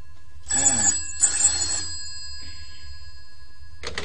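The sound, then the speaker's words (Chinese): A telephone rings around midnight at a pawnshop, in a few separate bursts of bright, shrill bell tone: two clear rings, a fainter one, then another starting at the very end, with quiet between them. “成十二点噶啦，有冇搞错啊？呢、這个时候仲有电话嚟？”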